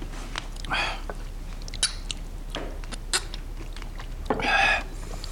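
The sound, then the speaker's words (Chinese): Someone gnaws on bones while eating, making scattered crunching and biting sounds. Sharp little cracks and clicks break through a quiet background, with a couple of longer, denser crunches. “这啃着骨头就着油，都快一个月没能这么吃喝了。”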